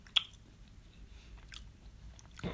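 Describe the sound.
Chewing a Mars chocolate bar: faint, moist biting and mastication, with one sharp bite near the start followed by a few soft crunches, without any talk.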